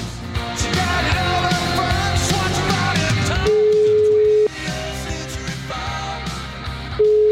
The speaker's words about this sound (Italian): Io proverei a fargli una piccola telefonatina, sì.